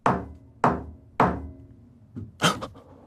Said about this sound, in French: Esprit, si tu m'entends, tape 3 coups.